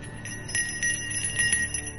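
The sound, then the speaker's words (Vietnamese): A hand bell rings over and over, shaken continuously during a chanting ritual: bright, sustained high-pitched ringing with many quick repeated strikes at a fairly even rhythm, moderately loud throughout. “Tiếng chuông vang lên như là trợ lực cho Huy.”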